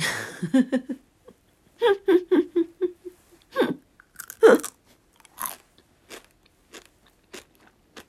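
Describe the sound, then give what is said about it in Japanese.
Chewing grape-flavoured gummy candy: many irregular soft bites and squishy chews, some crunchy clicks, with a few brief voiced murmurs between them against quiet gaps. “おっくんさんにいただいたグミッツェルグレープ味を食べる背徳感たるや”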